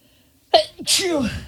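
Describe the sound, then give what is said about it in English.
A person who is either allergic or ill sneezes twice in quick succession. A short sharp burst comes first, then a longer, louder sneeze with a voiced, falling tail. “Time to sneeze. Two sneezes.”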